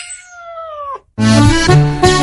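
A cat at a cat café meows once, a clear, drawn-out cry that slides slightly downward in pitch, heard alone without talk.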